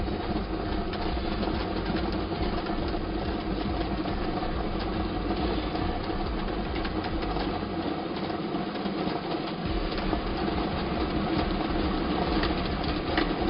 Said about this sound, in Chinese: 马上为您启动摇奖机。我们摇奖机呢已经正式启动了